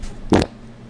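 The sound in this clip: A fart caught in a microphone wind guard comes through as one brief, muffled, low-pitched burst, a split-second thump with nothing else around it.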